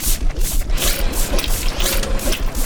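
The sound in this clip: A scooping machine at a fashion show runs with mechanical ratcheting and clattering. Rapid, steady rhythmic pulses continue loudly throughout, with no talking.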